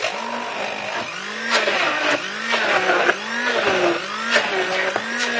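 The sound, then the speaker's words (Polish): A blender whirs loudly through thick chocolate bean batter with cocoa, honey and baking powder, its motor pitch repeatedly dipping and climbing back in a steady cycle. “I teraz będziemy wszystko blendować.”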